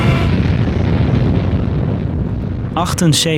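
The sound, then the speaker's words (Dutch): Deep, sustained roaring rumble of the atomic bomb Little Boy exploding over Hiroshima, Japan, in August 1945. It stays loud and steady for nearly three seconds before a voice briefly speaks. “Aan het einde van de Tweede Wereldoorlog laat de VS een bom met de bijnaam Little Boy op de Japanse stad Hiroshima vallen.”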